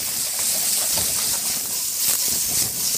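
Potatoes frying in a pan, already browned and crisp, give off a steady, even hiss of sizzling fat that holds at the same level throughout.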